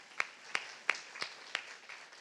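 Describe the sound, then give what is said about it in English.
Five faint, evenly spaced hand claps at a ladies' lunch at St. Philip's Church, a slow, sparse response rather than full applause, with near silence between each clap. “Thank you so much for coming to our first monthly ladies' lunch here at St. Philip's Church. Give yourselves a round of applause.”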